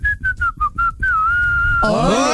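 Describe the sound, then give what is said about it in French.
A person whistles for a guessing game: five short, clipped notes in a quick rhythm, then one long held note at a slightly lower pitch. A denser, brighter sound cuts in at the end. “On va jouer avec le siffleur aujourd'hui.”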